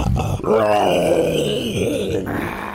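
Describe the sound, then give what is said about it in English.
A voice imitates a wounded creature snarling after being struck by a javelin, with a loud, drawn-out, rasping growl that wavers in pitch for nearly three seconds. “The javelin is launched from Nyssa's hand. And it connects into this creature that snarls.”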